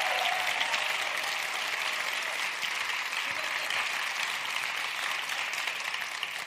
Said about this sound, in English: Please give a big Bodhi welcome to our new friend, Dr. Dane.